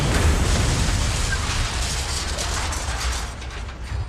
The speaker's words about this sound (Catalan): És el punt exacte on han de fer explotar la càrrega.